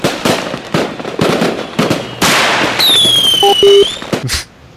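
Fireworks going off in a rapid series of sharp bangs and crackling bursts, with a high whistling tone rising over the blasts partway through.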